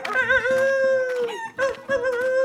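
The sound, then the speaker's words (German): A rooster crows while perched on a farmyard well: a loud, harmonic, strained call held over a couple of seconds and broken by brief gaps. “Und als es in den Hof kam, saß der Hahn auf dem Brunnen und rief:”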